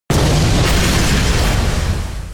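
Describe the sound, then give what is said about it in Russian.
A loud explosion sound effect with a sudden blast followed by a sustained roaring rumble that fills the low end and eases only slightly over about two seconds. “Затем последовал еще один взрыв, разрывая барабанные перепонки.”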